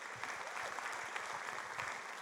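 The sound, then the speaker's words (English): An audience applauds to welcome a guest onto the stage, a steady, even wash of clapping that carries through the whole clip at a fairly faint level. “Let's put our hands together and welcome Stephen Backhouse.”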